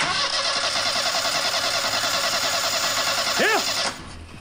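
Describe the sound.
An engine starts for a test run of a repaired machine whose three-bladed propeller has blades out of plane. It gives a loud, steady droning hum that holds evenly and then cuts off abruptly near the end.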